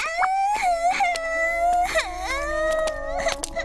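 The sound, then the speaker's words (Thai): A child cries with continuous wavering, high-pitched wails and whimpers, the sobbing rising and breaking in uneven bursts without pause. “ร้องไห้ทำไมล่ะลูก”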